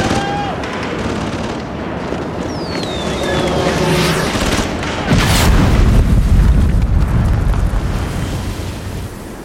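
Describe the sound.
A laser-guided bomb from a Mirage jet strike explodes. A continuous rumbling roar swells into a heavier, louder low boom partway through, then rumbles on and slowly eases.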